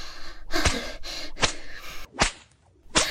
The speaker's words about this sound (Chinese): 好啊，那妈妈 就换更粗的鞭子来伺候你了。